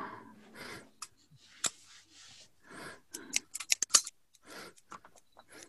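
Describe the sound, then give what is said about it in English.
Scissors snipping in faint, irregular clicks, with a cluster of sharp snips in the middle of the passage and soft breathing between them. “Got some scissors.”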